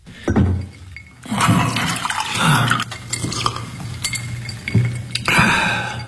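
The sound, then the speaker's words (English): Water poured into a glass by a judge in a courtroom: a splashing, gurgling liquid flow with a few light glassy clinks, rising and falling in bursts without talk. “I watched him use getting a drink of water to cover his fury.”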